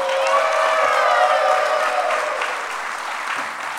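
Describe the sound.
Audience applause for a guest at a live comedy show: a loud, dense wash of clapping that holds steady, then eases slightly toward the end.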